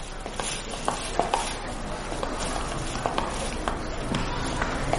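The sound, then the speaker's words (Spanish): Hurried footsteps along a school hallway: a quick, steady run of light steps over continuous background noise. “Asher camina apresurado por el pasillo del instituto.”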